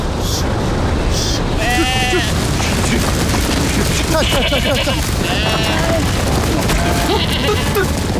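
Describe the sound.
A flock of sheep startled by an aircraft bleats several times, with wavering cries rising above a loud, continuous roar and rumble.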